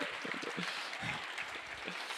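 Applause from a church audience during a service: dense, steady clapping that continues without a break, with only slight swells in loudness.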